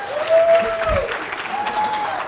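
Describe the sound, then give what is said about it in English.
Audience applause for a congratulated man: a short, even burst of many hands clapping with crowd murmur, steady and fairly loud for about two seconds. “Congratulations, man. Give him a hand.”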